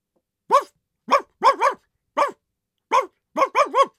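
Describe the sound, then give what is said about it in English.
A dog barks nine times in an uneven rhythm, single sharp barks at first, then a quick double and a final rapid triple. Each bark is loud and clear against silence. “Then there was a series of barks.”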